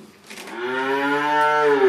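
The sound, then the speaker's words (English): Calves moo expectantly at feeding time on a dairy farm, one long, low, sustained call that swells steadily in loudness and holds to the end, with no talk over it. “Van Axel leads me around his farm, where calves moo expectantly at feeding time.”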